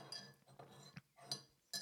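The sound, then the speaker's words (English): A spoon stirs tea in a cup, making a few light, bright metallic clinks against the cup's side. Softer scraping fills the short gaps between the clinks. “As I stir my tea in the background. You hear that?”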